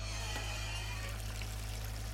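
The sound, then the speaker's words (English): Water rushes steadily from a hose into a hydroponic bin with a pump in place, a continuous even hiss with a low, constant hum underneath and no breaks. “Now that we have the bin assembled and the pump in place, we can get the water flowing. Would you like the honor of turning on the hose?”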